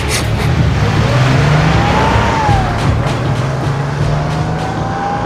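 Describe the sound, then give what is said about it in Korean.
A car accelerating hard as its driver flees, heard as a loud, steady engine roar with faint whining tones running through it for the whole stretch and no voices. “나는 급히 가속 페달을 밟았다.”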